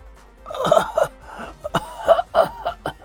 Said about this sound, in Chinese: 他咳了几声，艰难道